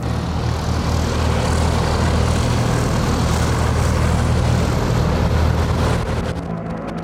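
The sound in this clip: An airplane engine roars in a combat setting with a steady, loud, droning rush that holds constant for about six seconds, then eases slightly at the end.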